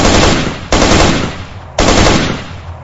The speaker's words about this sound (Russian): я вскинул автомат и становил очередь в ту сторону, откуда прилетело.